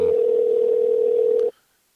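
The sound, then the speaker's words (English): Ringback tone on an outgoing phone call: a loud, steady single-pitched tone that holds for about one and a half seconds, then cuts off abruptly into silence. “Come down on that ringer a little bit. Here we go. He might not answer,”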